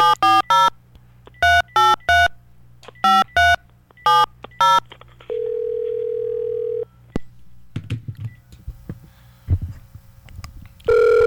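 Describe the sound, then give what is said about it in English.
Touch-tone telephone dialing for a call: a quick series of sharp beeps in short clusters, followed by a long steady tone, then a click and faint, crackly line noise. “Oh, gee whiz. Dialed the wrong number. Okay, here we go. Next call.”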